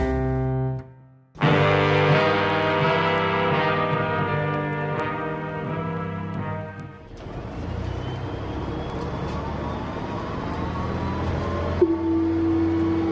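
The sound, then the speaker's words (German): Train station ambience at Görlitzer Bahnhof: a sustained harmonic drone from a train, then a rising mechanical whine over a continuous low rumble, with a brief tone near the end. “Görlitzer Bahnhof.”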